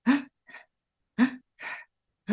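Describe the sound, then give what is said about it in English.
A person imitates the quick, shallow breathing of someone stressed and worried: two short gasp-like breaths, each a voiced catch followed by a softer, breathy release, with a third beginning at the end. “We shallow breathe because we're stressed, because we're worried.”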